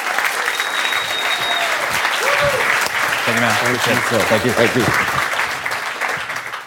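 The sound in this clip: Audience applause welcoming a keynote speaker onto the stage at a business event, steady dense clapping throughout with a man's voice speaking over part of it.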